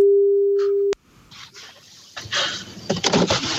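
A telephone ringing tone sounds as a call is placed to a contest participant. One steady, mid-pitched tone lasts just under a second and ends in a sharp click, followed by rustling line noise that grows louder.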